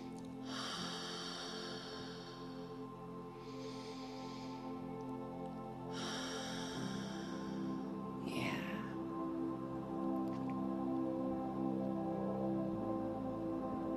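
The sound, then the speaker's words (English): Deep breaths taken by people: a few slow, airy inhales and exhales, soft breathy hissing that rises and fades over a low steady background hum. “Let's start with a few deep breaths. At least three.”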